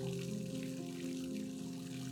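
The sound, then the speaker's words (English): Water pours steadily into a filling bathtub in a luxury hotel, a continuous, even rush with no breaks across the whole clip. “The bath is filling up now. Test the temperature.”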